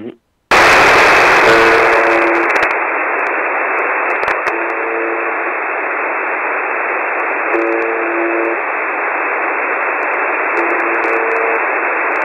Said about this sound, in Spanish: que se denomina The Buzzer. Utilizando la página web de la universidad, vamos a irnos en directo a ver si podemos escucharla.